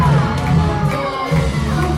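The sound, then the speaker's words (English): A crowd booing a competitor, a loud mass of low sustained voices swelling and dipping in waves. “Now, it's strange that they're booing this guy.”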